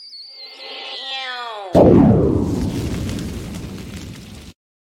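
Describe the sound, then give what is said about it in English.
A bomb explosion sound effect: a descending whistle glides down in pitch, then one loud blast bursts out and rolls into a long rumbling decay before stopping abruptly. “Where's my bomb, please?”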